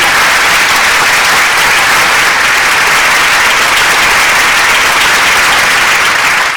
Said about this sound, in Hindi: आपके लिए हमारी जानिब से बहुत सी तालियां